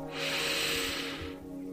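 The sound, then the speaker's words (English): A single long, deep breath in during a guided relaxation exercise: a steady, airy rush that swells, holds for about a second and then fades, with no talking. “I want you to begin by taking a very deep breath”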